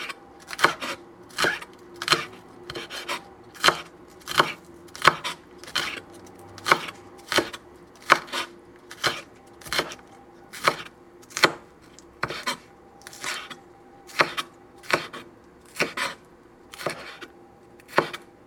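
Green onions being chopped for a salmon rice dish: many crisp, even knife strikes in a steady, regular rhythm. The chopping is fairly quiet and heard on its own, with no voices.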